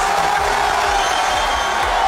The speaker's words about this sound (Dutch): Dat gejuich ging zo'n 2 minuten door voordat bondscoach Ancelotti door kon met het bekendmaken van de selectie.